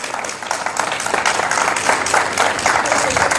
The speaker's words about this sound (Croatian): Velikim pljeskom obitelj Rončević ispraćena je sa Zagrebačke zračne luke.